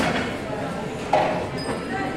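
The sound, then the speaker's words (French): School canteen ambience: a steady murmur of many voices with a few faint clinks of dishes mixed into the noise. “Pendant que la cantinière parlait, eh ben, Colline, elle avait mis une ambiance de cantine en fond.”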